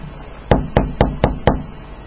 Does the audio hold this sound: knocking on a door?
yes